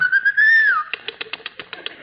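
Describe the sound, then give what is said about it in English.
A man whistles at a woman: one long tone that glides up and then drops, followed by a run of sharp, evenly spaced taps. “In Brazil, you actually have men who whistle at women?”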